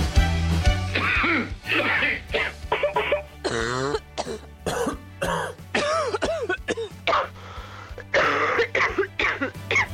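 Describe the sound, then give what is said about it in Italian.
Many coughs and throat-clearing bursts follow one another in quick succession, some harsh and some more voiced, varying in pitch and fairly loud, with brief gaps between them. “E sì, abbiamo sentito colpi di tosse in apertura.”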